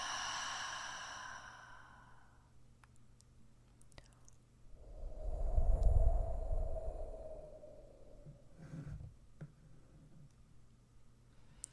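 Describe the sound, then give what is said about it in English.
Gentle breathing in and out closes a guided meditation: a faint voice at first, then a long, soft breath that swells and fades, followed by a shorter, quieter breath, all hushed and calm. “Gently breathing in and out.”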